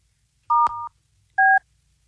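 Touch-tone telephone dialing as a call is made again: three short electronic beeps. The first two run together with a click between them, and a third follows after a brief pause, each clear against silence.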